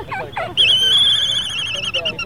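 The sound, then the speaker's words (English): Birds calling on Midway, a coral atoll: one high, warbling call held for nearly two seconds, preceded by a brief voice. “we all trooped over to those birds who are unafraid of man and are also unafraid of microphones. Hey, say something. Say something for everybody.”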